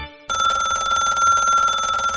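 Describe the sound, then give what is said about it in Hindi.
A telephone bell ringing: after a brief near-silent moment, a steady, bright electronic ring starts abruptly and continues unbroken to the end, with nothing else heard. “Telephone की घंटी बजी।”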